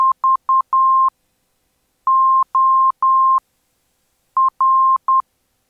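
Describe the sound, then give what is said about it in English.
Morse code identifier tones from a VOR navigation beacon: a steady, mid-pitched beep keyed into short and long pulses, sounding in three separated coded groups on its own with no voices. “The remaining identifiers are the VOR,”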